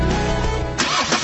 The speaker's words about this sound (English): This is the sound of a car engine.